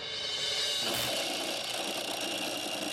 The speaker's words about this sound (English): Oh, this gear right here is so worn out, it's not even meshing at all. So this is the piece making the noise.